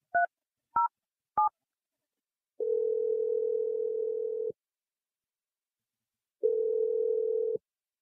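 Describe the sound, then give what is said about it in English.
A telephone dials a number with three short touch-tone beeps in quick succession. After a pause, two longer steady tones follow with a gap between them, and no voices are heard. “Let's just dial her number. Here we go.”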